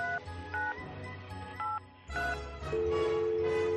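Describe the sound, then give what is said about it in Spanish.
Telephone dialing tones: a few short, separated keypad beeps, then a long steady tone that continues to the end. No voices are heard. “Espera que voy a hacer una llamadita.”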